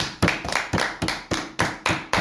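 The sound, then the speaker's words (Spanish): Applause for an interviewee, heard as eight loud, evenly spaced hand claps in a steady rhythm, each one sharp and then quickly fading, with no talk over them. “Juli Gompe, un aplauso.”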